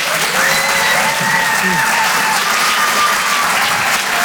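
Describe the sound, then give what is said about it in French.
Comedy club audience applauds and cheers between acts at a live show, a loud, steady wash of clapping with scattered shouts that holds evenly throughout. “Je vous demande de faire un maximum de bruit, s'il vous plaît, pour David Azria.”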